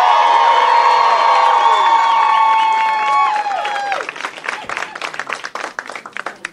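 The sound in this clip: Audience cheering and applauding as a band takes the stage, with loud sustained shrieks and whoops at first, then giving way to busy, uneven clapping and scattered shouts that gradually thin out.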